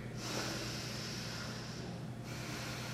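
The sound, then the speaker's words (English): Deep breathing in and out through the belly and chest gives a long, steady airy rush of breath. It runs almost unbroken, with one brief dip near the end before it carries on. “You inhale into the belly and the chest. You exhale from the belly and the chest.”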